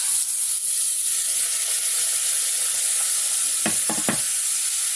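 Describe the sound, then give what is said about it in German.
Onions sizzle steadily as they fry in a pan, already burnt black, with tomatoes being added; a few brief stirring scrapes rise over the continuous hiss near the end. “Oh, hier ist schon was verbrannt. Goldbraun soll man nicht Zwiebeln braten, stand da. Jetzt sind sie eher schwarz. Schnell die Tomaten rein.”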